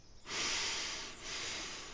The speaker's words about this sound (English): So you're going to breathe in for two, like one, two. So your breath will be like this.